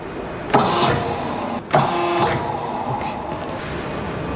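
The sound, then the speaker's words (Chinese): An industrial rare-earth permanent magnet motor starting up: two abrupt mechanical onsets, then a steady whirring hum with a brief tonal whine, continuing evenly to the end. “电流接通瞬间便能与定子磁场实现同步，从而实现零延迟启动。 设备完好，可以启动。 好的，收到，准备启动。”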